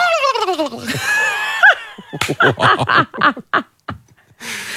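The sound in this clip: A human voice imitates a turkey gobbling: a loud sliding, warbling call, then a rapid run of choppy throaty pulses with brief gaps before a final breathy burst.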